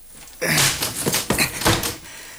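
A locked door is pushed and forced open, a few heavy thumps and rattling knocks in quick succession, fairly loud, with no voices.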